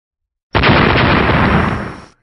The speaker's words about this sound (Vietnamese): Hai tiếng nổ mạnh, khi cái nắm đấm khổng lồ của Kim Mao Cự Viên